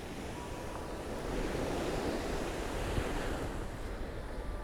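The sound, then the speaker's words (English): Strong wind blowing at Chesil Beach, a steady, loud roar buffeting the microphone with surf noise mixed in and no voices. “it is quite windy. Let me see if I can shield myself at all.”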